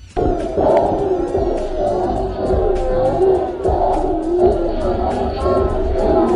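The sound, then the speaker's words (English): Crowd commotion from a large throng of people outside the pool at Rick Ross's pool party hosted by Uncle Luke: a dense, loud, continuous roar of overlapping voices and shouts that stays steady throughout. “Yes, that commotion you hear is a whole bunch of people outside the pool.”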